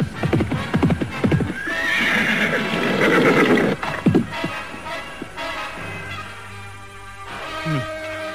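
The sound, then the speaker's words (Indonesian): A white horse arriving neighs in a loud, drawn-out whinny, with quick clip-clopping hooves just before it. “Lalu tak beberapa lama kemudian, datanglah Layang Suta dengan kuda putihnya.”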